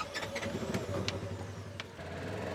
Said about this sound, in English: Outside the city of Cornell in Chippewa County, Nick Haas steers a vehicle he calls the Swamp Buggy into a 100-acre wetland known as Foggy Acres.